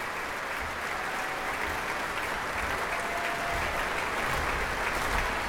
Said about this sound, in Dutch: En het bromgeklap voor de encore, voor de toegift.